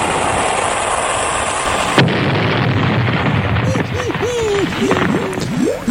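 Cannon fire aimed at sinking a ship comes after a rushing, hissing build-up. One sharp, loud blast is followed by a rumbling wash of noise.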